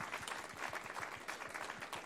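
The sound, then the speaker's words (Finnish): An audience applauds the volunteer reading grandmothers and grandfathers of a school reading programme, a steady, dense patter of many hands clapping at a moderate level, unbroken from start to finish. “Että ihan aplodit meidän mummeille ja vaareille.”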